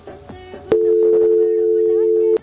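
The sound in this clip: A telephone line tone sounds as a listener's call connects on a call-in radio show. A single steady tone holds for under two seconds and stops abruptly, with brief talk before it.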